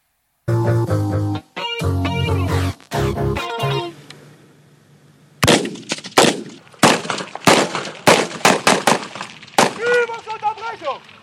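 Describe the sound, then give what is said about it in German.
Soldiers fire weapons at a military training area in Brandenburg, Germany: many sharp, loud reports crack in an irregular series after a dense, loud opening stretch of noise. “Truppenübungsplatz Lenin in Brandenburg. Soldatinnen und Soldaten an der Waffe.”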